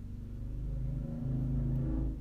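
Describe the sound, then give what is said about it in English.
A motorcycle passes by with a low, rumbling engine note that swells steadily and stays fairly soft. “Pause for the motorcycle. I'm gonna edit that out.”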